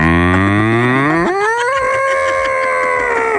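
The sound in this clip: A human voice imitates a cow on a farm mooing: one long, sustained, loud moo that starts low and jumps higher partway through, then holds the raised tone to the end.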